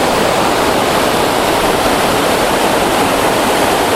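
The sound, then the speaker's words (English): A waterfall roars with a steady, dense rush of falling water, continuous and unchanging throughout, with no voices. “I've come all this way for this waterfall and now I've done it.”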